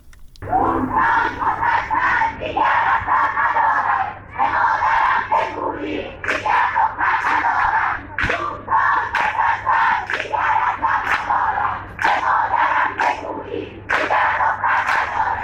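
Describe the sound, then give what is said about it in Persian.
Students at Allameh Tabatabai University chant in protest, a loud crowd shouting in rhythmic bursts with short breaks between phrases, over a faint steady hum. “این صدای دانشجویان دانشگاه علامه طباطبایی بود.”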